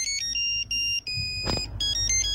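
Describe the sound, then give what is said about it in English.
A polyphonic mobile phone ringtone plays a melody from an 80s pop song in bright, synthetic beeping tones. Short sustained notes are separated by brief gaps, fairly loud and heard without voices. “Polyphonic ringtone. Name this polyphonic ringtone.”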